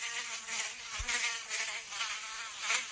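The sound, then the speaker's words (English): A fly buzzes in a continuous high, whining drone that swells and fades slightly in loudness, faint and alone with no voices. “I'm going to say a fly.”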